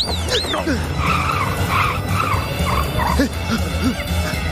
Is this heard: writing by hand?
no